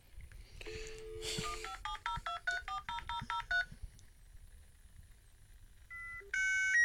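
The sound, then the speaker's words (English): A dial-up internet modem connecting: a rapid run of many touch-tone dialing beeps, each short and evenly spaced, followed after a pause by louder, higher handshake tones at the end. “I used to hate that noise. I never had dial-up.”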